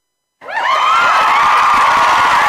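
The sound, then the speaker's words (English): A studio audience suddenly breaks into loud cheering, shouting and whooping after a moment of silence. The noise stays strong and sustained to the end. “Man, like right in the middle of my conversation, the audience interrupts. I can't believe that.”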